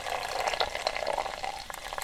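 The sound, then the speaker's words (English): A pint of Guinness poured from a bar tap: a steady, faint gurgling stream of liquid with soft bubbling and splashing that runs without break throughout. “Not so fast there. Pour gently. Foamier, foamier, foamier.”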